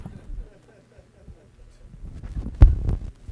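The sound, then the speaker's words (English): A guitar amp with spring reverb is slammed into the floor, giving one sharp, loud crash with a short rumbling decay. Quiet, low murmuring comes before it. “So like this amp has a spring reverb. And you can always tell, just turn it up and slam it into the floor.”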